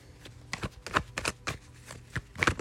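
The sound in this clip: Tarot cards being shuffled and drawn, heard as many short papery swishes and flicks in an uneven rhythm, fairly faint and with no talk.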